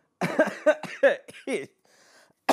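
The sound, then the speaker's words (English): Coughing after a workout, a quick series of short, harsh bursts with a phlegmy, throaty edge, followed by a faint breathy tail. “my lungs are still kind of coughing up some of that phlegm and stuff from working out earlier. So excuse me if I cough or anything during this episode.”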